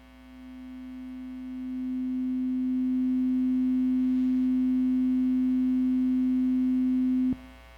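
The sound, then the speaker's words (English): Middle C tuning fork ringing: a pure, steady mid-low tone that swells over the first seconds, then holds evenly for several seconds before cutting off abruptly with a small click. “He would tap it. If you know a tuning fork, it plays a sound.”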